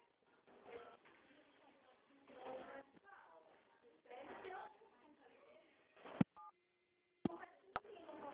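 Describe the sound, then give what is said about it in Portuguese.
Keypad dialing tones sound on a mobile phone call while the caller is driving: a few short electronic beeps and a steady tone cut into the muffled phone-line audio, with voice-like sounds around them. “Tá parecendo que tá discando no aparelho do senhor, no celular.”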